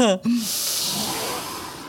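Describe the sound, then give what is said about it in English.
A deep breath drawn in before blowing a bubble: a brief voice, then a long, steady, airy inhale that fills the rest of the moment. “You know how to make a giant giraffe super bubble? One more deep breath in.”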